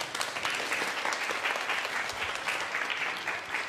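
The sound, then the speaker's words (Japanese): Loud, sustained applause from a crowd gathered inside the shop of a roadside station in Yamaguchi, with dense, steady clapping throughout and no speech. “大きな拍手”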